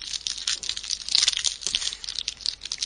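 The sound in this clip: Wrapper crinkling as a pack of collectible cards is torn open: bright, busy crackling and rustling that runs continuously, with no voices.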